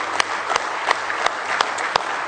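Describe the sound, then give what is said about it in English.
A church audience gives a hand clap of praise during a service: dense, steady applause with several sharper claps standing out above the wash. “Now let's give Him a real good hand clap of praise tonight.”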